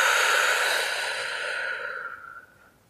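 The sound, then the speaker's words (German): A single long breath out during a guided breathing exercise, breathy and airy, slowly thinning and fading away over about two and a half seconds. “Und noch ein letztes Mal gemeinsam einatmen. Die Luft kurz anhalten Und gemeinsam ausatmen.”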